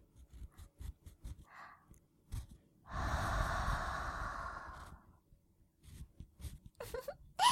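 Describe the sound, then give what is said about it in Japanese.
Breath is blown softly into the ear before ear cleaning: a sustained, airy hiss of about two seconds, framed by faint rustles and small clicks. “お耳は敏感なので、まずは吐息で温めて、リラックスさせてからしたかったんです。”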